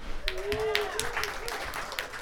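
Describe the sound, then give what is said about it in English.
An audience claps for upcoming readers being announced at a live event. The applause is steady and moderately loud, and a voice talks over it throughout. “We can clap hard at that. Come on.”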